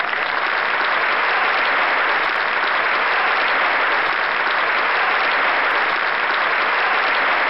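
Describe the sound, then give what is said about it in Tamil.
Loud, dense applause from an audience for the participants as a show closes, a continuous roar of many hands clapping at a constant level for the whole stretch, with no voices on top. “கலந்துகிட்ட எல்லாருக்குமே என்னுடைய வாழ்த்துக்கள் சொல்லணும்னா ஒரு பெரிய round of applause வேணும் இல்லையா?”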